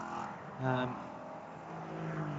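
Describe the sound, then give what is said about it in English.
A Riley Motorsports race car at a Michelin Pilot Challenge 2020 race at Mid-Ohio passes up the inside of a Fast Track Racing BMW. Its engine note swells briefly, then settles back into steady track noise. “Through on the inside goes the Riley Motorsports car. That was up the inside of the Fast Track Racing BMW,”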